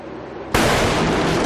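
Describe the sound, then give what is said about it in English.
An explosive charge of the kind used to protect embassy gates detonates at a gate: quiet at first, then a sudden, loud blast gives way to a sustained rumbling roar. “They use these charges on the outside of embassies. To protect the gates from people trying to break in. Looks like it's going to suck. It is, I promise. Fire in the hole!”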